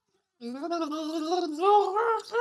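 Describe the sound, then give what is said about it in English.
Wet, voiced gargling of turkey soup, a bubbling throat rattle with a wavering tone that starts after a short silence and runs unbroken for about two seconds, with no talk. “I gargle turkey soup to keep the vocal cords loose.”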